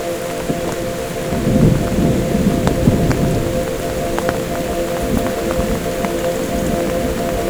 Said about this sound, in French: C'est la naissance d'un léger orage.